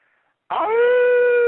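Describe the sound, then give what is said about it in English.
A person imitates a wolf howl with one long, loud, steady tone that starts suddenly after a short quiet moment and holds a nearly level pitch until the end. “Oh, beautiful howl. You're now officially part of the pack.”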